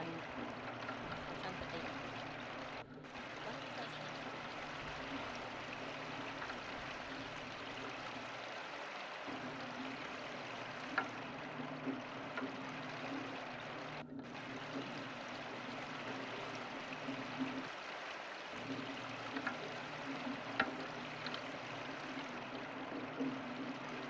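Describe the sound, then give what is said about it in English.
Water runs from a sink tap into a kettle as a faint, steady rushing that holds for the whole stretch, with only a couple of brief dips in the flow. “So I'm boiling a kettle, I'm filling it up now in the sink. Halfway. And I'm going to boil it.”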